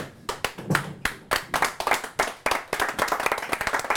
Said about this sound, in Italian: consentitemi, proprio in chiusura, facciamo una standing ovation, non l'abbiamo mai fatta, ai giocatori dell'Iran, Bravi. alziamoci.